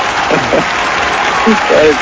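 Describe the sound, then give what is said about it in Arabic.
Steady, fairly loud applause with people talking over the clapping throughout. “تصفيق يا طارق”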